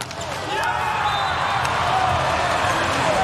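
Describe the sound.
A hard volleyball jump serve strikes the ball with a brief sharp smack over a steady arena crowd roar.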